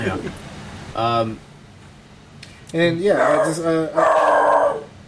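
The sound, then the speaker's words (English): A dog howls at the door: first a short howl, then after a pause a longer, louder one that wavers up and down over a couple of seconds. “That's my dog. We can ignore the dog. This is gonna be a regular segment on. Is when my dog barks at the door.”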